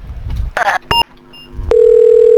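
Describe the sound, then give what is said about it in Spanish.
A telephone line tone on a call the caller takes to be an engaged line: after a few clicks and short noisy bursts, one steady, unbroken mid-pitched tone starts partway through and holds loud to the end. “Comunica. ¿No es cierto? Igual estaba hablando alguien. Seguramente ahora le estará quitando el teléfono. Igual la línea está ocupada, sí.”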